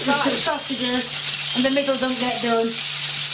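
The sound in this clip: Sausages sizzle as they fry in a pan, giving a dense, steady crackling hiss that runs the whole time while a voice talks over it.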